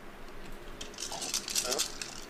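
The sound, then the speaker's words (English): Dice rattling and clattering across a table during a tabletop role-playing game, a short burst of bright, rapid clicks and knocks as several dice tumble and settle. “You guys all get to roll those extra four dice thanks to Dobrik's counterspell.”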